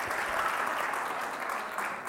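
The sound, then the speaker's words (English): Audience applause for a volunteer at a talk, an even, steady patter of many hands clapping that stays moderately loud throughout with no voices over it. “can we have a round of applause for Evie as well?”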